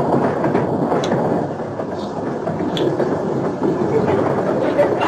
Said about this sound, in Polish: Ten pociąg nie zatrzymuje się w Skierniewicy.